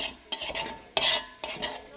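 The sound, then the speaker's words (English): Metal pots are scraped clean after a communal lunch, with several rough scraping strokes and utensil clatter in irregular bursts, moderately loud. “As the lunch hour wraps up, the women scrape pots clean for the next day's work.”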